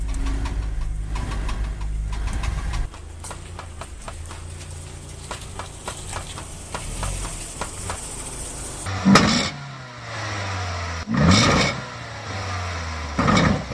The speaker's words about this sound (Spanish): El siguiente sonido que es muy común que se presente es la junta homocinética, que esta conecta la caja de velocidades con la llanta. Usualmente presenta un ruido al girar el volante.